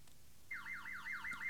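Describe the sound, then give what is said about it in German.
A jeweller's shop alarm system being tested gives out rapid, repeated falling electronic sweeps that begin after a short quiet moment and carry on in a steady, fairly faint wailing cycle. “Gleich prüft er die Alarmanlage.”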